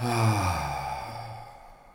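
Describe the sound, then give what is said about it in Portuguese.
A single long, deep exhale from a guided breathing exercise begins with a slightly voiced sigh and gradually fades into quiet breath over about two seconds. “inspira e enche bem o seu corpo de ar, faz uma inspiração bem deliberada e solta bem.”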